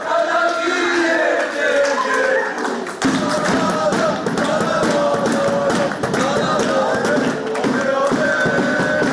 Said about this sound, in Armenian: Ոգևորող կոչեր, շնորհավորանքներ, երկ, թմբուկ, ֆուտբոլի երկրպագուներն այսօր ուրախ տրամադրություն էին բերել Զվարթնոց օդանավակայան։